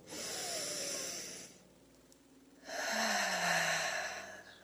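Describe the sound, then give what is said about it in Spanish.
Deep breaths during a guided meditation: a long, airy inhalation, then a quiet pause, then another long, slow breath of similar strength. No words are spoken. “Ahora vamos a inhalar profundo.”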